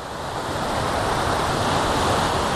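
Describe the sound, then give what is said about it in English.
Steady rushing roar of a waterfall in hilly country: dense, unbroken white water that swells slightly over the first second and then holds an even, full level, with no voices. “These hills, I can hear another waterfall. Oh wow, waterfall city.”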